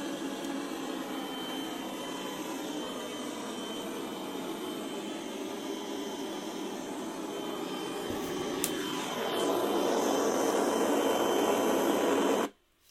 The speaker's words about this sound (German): Also das ist natürlich normal, dass jetzt, wenn der Sender aus ist, ist nichts mehr, was wir empfangen können. Und dann haben wir überall das Rauschen im Walde, das ist normal.